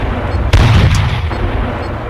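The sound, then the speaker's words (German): A tank cannon fires once in a video game: a single sharp, heavy boom with a low rumbling tail rising out of a steady background drone. “Good shooting! Enemy tank destroyed!”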